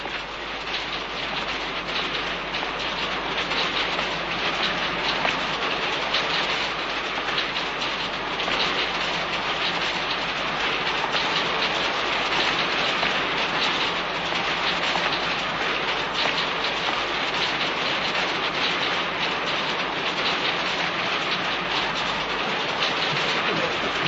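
A train carrying prisoners in 1912, from Washington State Penitentiary to the Leavenworth penitentiary in Kansas, rendered as a drama effect: a dense, steady rolling rumble and roar that holds evenly throughout with no voices.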